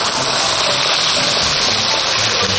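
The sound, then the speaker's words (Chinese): Hot water is poured into stir-fried beef brisket and tendon in a wok. A loud, steady rushing hiss runs unbroken from start to finish. “加入热水”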